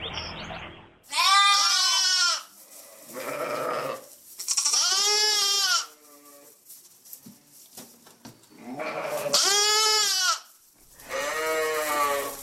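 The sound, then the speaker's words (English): Lambs and their mothers bleating on a sheep farm: several long, loud, quavering bleats, some high and some deeper, with short pauses between them. “That's the sound of baby lambs with their moms. Oh, so sweet. Oh. Our listener, Paul, recorded the lambs and their mothers.”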